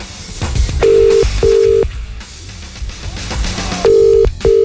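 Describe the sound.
Ringback tone of an outgoing telephone call during a radio prank call: two pairs of short, steady, mid-pitched tone bursts separated by a longer pause, heard alone over low background noise.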